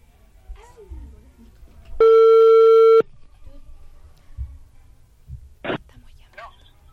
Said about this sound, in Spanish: vamos a hacer una llamada telefónica y vamos a contar un acertijo. A ver, vamos a probar con esta llamada.